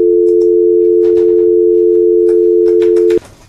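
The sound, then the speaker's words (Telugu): Telephone dial tone after a call from a phone-in caller is cut off, a loud, steady low hum holding for about three seconds before stopping abruptly, leaving faint noise behind. “Call అయితే cut అయింది.”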